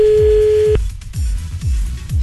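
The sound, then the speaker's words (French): A phone call tone sounds while a call is being placed: a steady, mid-pitched, continuous tone that cuts off abruptly after under a second. Regular low thumping pulses run underneath throughout. “Il appelle Pietre. Allô?”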